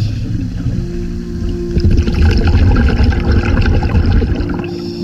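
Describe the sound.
Underwater ambience during a dive into a bay's seagrass meadow: a steady, churning low rumble with a faint tonal hum and scattered bubbly crackle, swelling slightly midway, with no voices.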